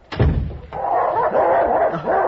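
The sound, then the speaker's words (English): Dogs vocalise at a house as a snowstorm begins. A sharp, loud opening burst gives way to a sustained, wavering run of whines and low growling sounds that lasts to the end. “Fine dogs. Come here, fellows.”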